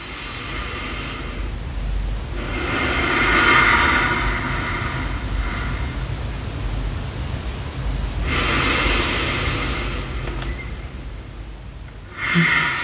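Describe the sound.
Slow belly breathing paced at four counts in and six counts out: long, airy breaths that swell and fade in a few slow cycles, with nobody talking.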